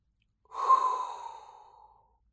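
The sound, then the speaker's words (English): A single deep breath from a person, one soft, airy rush that rises quickly and then trails off over about a second and a half, alone in otherwise near silence. “And there is only one thing left to do. And that is inhale a hot breath”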